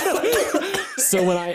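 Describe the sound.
A person's short, theatrical coughing fit blended with laugh-like voiced bursts, a rapid run of hoarse, wavering sounds lasting under two seconds.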